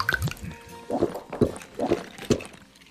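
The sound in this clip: Beer being poured and drunk, wet liquid sounds followed by four distinct gulping swallows at an even pace.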